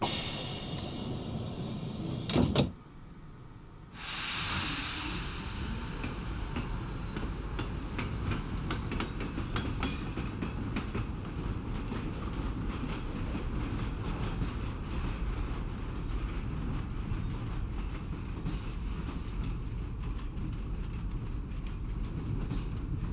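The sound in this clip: Train running on rails, heard from inside a heated passenger car: a steady low rumble with faint clickety-clack that stays even throughout, broken only by a brief quieter dip near the start.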